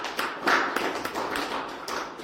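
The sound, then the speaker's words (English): A church audience claps along during a sermon, many sharp claps in a fairly steady rhythm, dense and moderately loud with no talking over them. “Oh, clap unto him. Hallelujah.”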